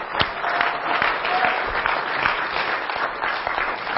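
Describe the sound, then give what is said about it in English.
Applause from a church audience, steady dense clapping from many hands that holds loud and even throughout. “Let's give the Lord a hand for those six people.”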